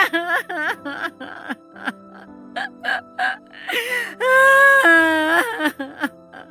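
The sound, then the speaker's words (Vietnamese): A woman crying in distress: broken sobs, gasps and wavering high moans come in short bursts, then one long sustained wail before the sobbing resumes in shorter breaths. “Bà Phán khóc dầm dề.”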